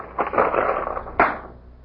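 Room keys jingle in two short metallic rattles, the first longer and the second a quick sharp burst that fades out, with no voices.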